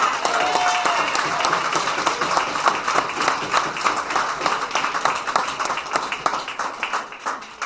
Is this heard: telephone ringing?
no